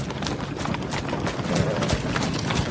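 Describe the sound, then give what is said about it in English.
Clydesdale horse hooves clip-clopping in a beer advertisement: many steady, crisp hoof strikes in a brisk rhythm that grow somewhat louder in the second half. “Is that Dylan Mulvaney riding the Clydesdale?”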